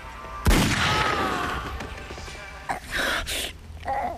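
A single gunshot cracks out sharply and loudly and leaves a ringing tail, followed by a pained moan and a few more short thuds and noises.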